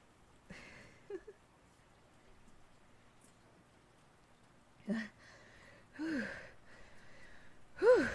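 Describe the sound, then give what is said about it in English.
Heavy, out-of-breath gasps stand apart against a quiet, hissy background. A few loud, breathy pulls of air come in uneven spacing, bunching closer together toward the end. “I'm a little out of breath.”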